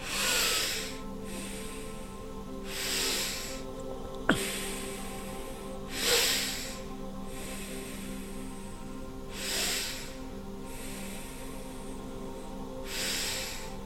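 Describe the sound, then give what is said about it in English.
Deep breathing in a breathwork exercise, with many rhythmic breathy rushes of inhales and exhales repeating every couple of seconds over a faint, steady drone. “Now do several breaths to source without swaha and see how that compares to the swaha breaths.”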